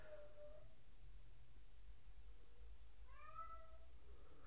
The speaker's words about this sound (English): Oh, you can hear my cat meowing a lot from the other room.